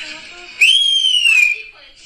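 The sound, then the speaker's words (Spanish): A catcall whistle aimed at a woman standing with her baby: one loud, piercing note that swoops up, holds steady, then slides slightly down and stops, over a softer background sound. “Esta señora está ahí con su bebé y de repente llegan y le chiflan.”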